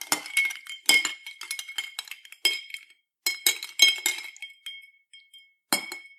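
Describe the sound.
A spoon stirring a honey cocktail in a glass, giving many bright, ringing clinks in quick irregular runs separated by short pauses.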